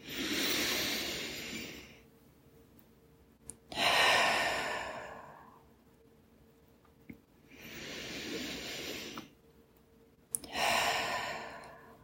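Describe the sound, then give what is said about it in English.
Slow, deep breaths drawn in and let out during a guided meditation, each a long, airy whoosh separated by quiet pauses, with no talking over them. “I want you to go ahead and take 3 deep breaths.”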